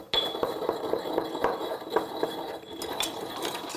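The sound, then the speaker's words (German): Coarse unrefined salt crushed in a mortar gives many irregular crunching knocks, clinks and gritty grinding scrapes in a fairly steady rhythm, with no voices. “Und das gebe ich jetzt dann in einen Mörser, um es ein bisschen klein zu machen.”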